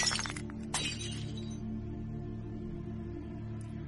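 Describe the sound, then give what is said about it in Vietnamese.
Glass shatters in a sharp crash at the start, followed by a second brief crack, as a bottle is smashed against a creature's head; afterward a faint, low steady drone continues alone. “vung chiếc bình tới. Chỉ nghe đánh choang một cái,”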